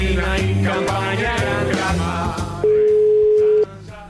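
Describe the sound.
A single long, steady telephone line tone sounds while a caller is being rung back, loud and even for about a second before stopping abruptly, set against a dense musical background.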